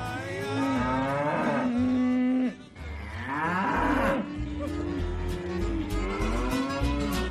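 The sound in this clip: Calves mooing as a cowboy drives them along: loud, overlapping bellowing calls, a brief lull partway through, then more long, drawn-out lowing that continues to the end.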